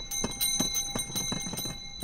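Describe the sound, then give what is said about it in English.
Ice cream cart bells ring along summer sidewalks, parks and beaches in Chicago, with many quick, bright metallic strikes in a steady, even rhythm that jingles continuously. “it's the season when these ice cream cart bells ring out in Chicago sidewalks, parks, and beaches.”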